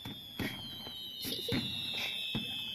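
Fireworks explode during a Mid-Autumn festival display, with several dull bursts popping at irregular intervals over a steady high whistling tone that runs throughout.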